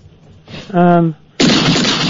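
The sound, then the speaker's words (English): A gunshot from a gun kept in a radio studio: an abrupt, loud blast of noise that bursts in suddenly and rings on steadily for close to a second. “Sorry, my gun went off accidentally. I do apologise.”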